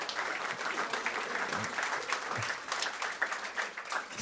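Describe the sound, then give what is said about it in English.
A round of applause from a small audience of about twenty to twenty-five people at a gathering: many hands clapping in a busy, slightly uneven patter that rises and dips in loudness across several seconds. “can we get a round of applause for Oliver?”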